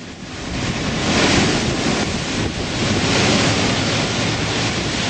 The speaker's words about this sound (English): here's the sound of the water flooding in the streets of Lower Manhattan at the height of Hurricane Sandy.